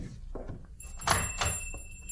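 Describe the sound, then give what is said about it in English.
A door being opened: a few soft knocks and thuds, then a pair of sharper clicking impacts like a latch or handle, fairly faint and with no talk. “open the door like before”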